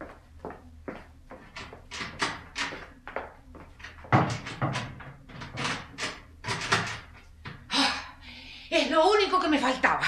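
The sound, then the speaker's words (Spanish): A stiff door lock is worked with many short clicks, rattles and knocks in uneven bursts, and a voice briefly speaks near the end. “Esta cerradura siempre igual. 100 veces le he dicho a Juan que la arregle, pero él como si tal cosa.”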